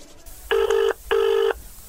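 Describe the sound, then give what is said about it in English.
A telephone rings out on the line after a number is dialed in a studio: two loud, buzzy electronic ring bursts of steady pitch with a short pause between them. “Dial the number, Hose, and here we go.”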